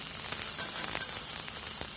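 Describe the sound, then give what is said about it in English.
A steak sears in a skillet and is basted with its pooled fat. A steady, bright sizzling hiss holds at even loudness throughout. “And then I'm going to tilt this skillet toward me so that that fat pools down at the bottom and I can scoop it up and baste it over the top”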